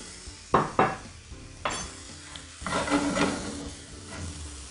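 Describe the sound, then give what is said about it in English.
Onion wedges sauté and brown in a pan. A few sharp clanks of a utensil against the pan are followed by a soft, hissing sizzle during stirring, and the sound stays fairly faint throughout. “I like to keep them in a wedge so that I can brown a little bit on both sides. The browning will just give it a little extra caramelization and some flavor.”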